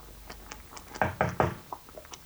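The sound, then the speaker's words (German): Three firm, fairly loud knocks on a study room door in quick, even succession, with a few fainter taps and ticks before and after. “An einem Februarabend des Jahres 1528 klopfte es an der Tür zu seiner Studierstube.”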